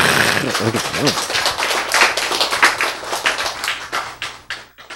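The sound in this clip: Audience clapping during a Bible lecture, a brisk burst of many claps that begins under a speaking voice, then thins out and fades.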